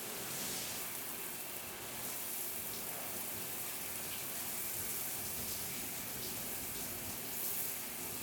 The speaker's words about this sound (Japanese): 背中、流しちゃいますね。